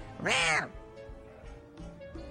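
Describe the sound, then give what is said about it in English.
A cat gives a single short, fairly loud meow with an arching pitch, followed by quieter low sounds for the rest of the two seconds. “The cat clearly does not like you guys.”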